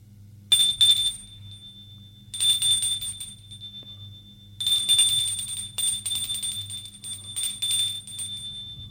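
A bell rung again in a few bursts of bright, high metallic trilling separated by short pauses, over a low steady hum, with no voices.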